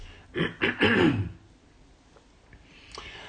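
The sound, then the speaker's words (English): A person clears their throat in a few rough, harsh bursts, then falls quiet apart from faint small noises. “Dear oh me, there's something in my throat and I want it to be gone.”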